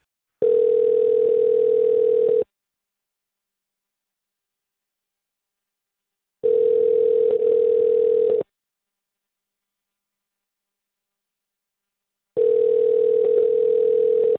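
A telephone ringing tone plays while a call is placed: three steady, humming two-second tones, each followed by about four seconds of silence.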